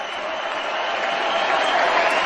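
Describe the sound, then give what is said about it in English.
Convention crowd chanting Bernie Sanders' name at a party convention after the roll call, heard as a dense, steady roar that holds loud throughout and swells slightly in the second half. “Sanders introduced at the end of the roll call that put his rival Hillary Clinton over the top, making her the nominee of the party. They're chanting his name.”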